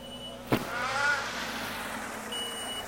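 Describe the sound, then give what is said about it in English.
Road traffic passes outside with a low, steady vehicle rumble and one sharp knock early on. “There's some traffic going on.”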